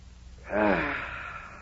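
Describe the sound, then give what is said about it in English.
A man doing early-morning setting-up exercises in gym clothes draws one deep breath. The breathy inhale swells quickly, then eases off and holds for a long moment, heard alone without talk. “Inhale.”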